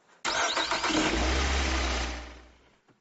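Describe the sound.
A car engine starts with a brief crank that catches into a loud, steady running rumble, then slowly dies away. No voices.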